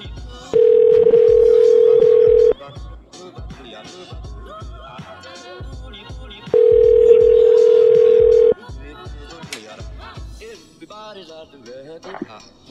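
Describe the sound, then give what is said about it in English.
Telephone tone heard while calling someone back: two steady, flat tones of about two seconds each, separated by a stretch of people talking, with voices continuing after the second tone. “I'm going to call him back one more time so you can try and resolve this.”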